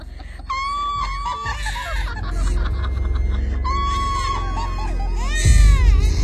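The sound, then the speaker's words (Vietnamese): A baby cries loudly in a forest, with long, high wavering wails in two separate bursts, joined near the end by rapid, cackling laughter. “đằng sau lưng tôi bất giác vang lên tiếng trẻ con khóc ré cả lên. Tiếng khóc vang vọng khắp cả khu rừng”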